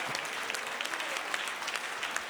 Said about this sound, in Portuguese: Pode louvar a Deus com as palmas. Louve a Deus.